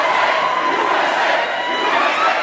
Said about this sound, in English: I'd like to thank our fake audience for joining us.